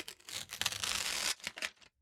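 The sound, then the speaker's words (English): Sticky tape rips off the roll in a long, harsh, screeching tear while a box is taped shut. A shorter strip is torn next, and then the sound stops into silence. “will you come help me finish taping this box?”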